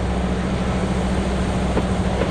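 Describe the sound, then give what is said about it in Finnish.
A locomotive engine revs hard while hauling twelve railway cars, giving a loud, steady, unbroken roaring drone with a constant low hum running underneath. “Vaunuja on 12. Tämän ikäisen ja tehoisen veturin konetilaan saa käskeä kierroksia reippaasti.”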